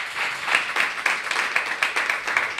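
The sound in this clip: Audience applause for a guest at the close of a live show: dense, steady clapping with many overlapping hand claps at moderate loudness, no voices on top.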